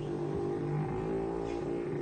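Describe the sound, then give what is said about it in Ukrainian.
Vehicles hum in a low, even drone that holds steady without breaks for the whole two seconds, with no voices heard. “О, чуешь? Гудуть машины. Это яны.”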